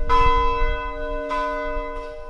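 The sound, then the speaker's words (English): A 150-year-old church bell rings out in a few strikes, each with a sharp onset that leaves a long, steady, overlapping hum of tones sustaining between strokes. “Every night for more than a year, someone from the congregation has climbed the narrow staircase at the front of the church to ring the 150-year-old bell.”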